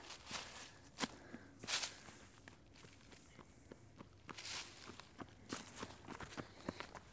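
Footsteps of a runner passing on a trail, many quick, irregular footfalls scuffing on the ground, faint overall with a few louder steps scattered through.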